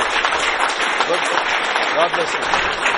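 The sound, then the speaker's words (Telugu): Audience applause fills a public address event, a thick, steady wash of many clapping hands at fairly high level, with a voice faintly audible over the clapping. “Let him leave us with sounds of claps chasing”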